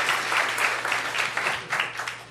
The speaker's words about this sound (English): Give a warm Green Mill welcome to Chandler Goodman, everybody.